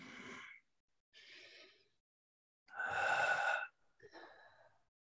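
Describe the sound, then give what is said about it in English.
Deep breaths drawn during a guided relaxation exercise: a few airy, breathy bursts separated by short silences, two of them louder and fuller and the others softer and shorter. “Now we're going to take 4 deep breaths to come out of this exercise. Let's inhale the first breath together.”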